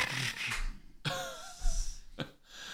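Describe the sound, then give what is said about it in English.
Someone chokes and clears their throat with a few rough, breathy bursts separated by short pauses. “whoa, excuse me. I got choked. I think I had a furball in my throat there.”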